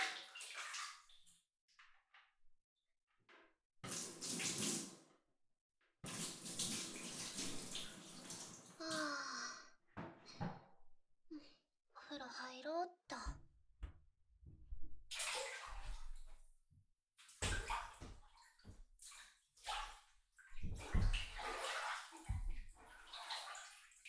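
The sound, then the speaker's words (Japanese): Bath water is poured over the body in irregular bursts of splashing and running water, with quiet pauses between the pours. The sounds are fairly soft, with no talking. “少し体を流して…”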